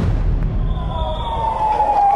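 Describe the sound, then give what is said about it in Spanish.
An ambulance siren sounds as a backup ambulance moves along Suipacha street. Its steady, wailing tone grows louder toward the end over a loud, rumbling background. “Otra de las ambulancias, que como refuerzo se desplaza por la calle Suipacha.”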